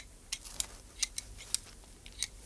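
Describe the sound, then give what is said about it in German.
Garden shears trimming a yew hedge: several crisp, bright snips at an uneven pace, each a short sharp click separated by quiet gaps. “Das ist schön, wie du die Taxushecke da schneidest”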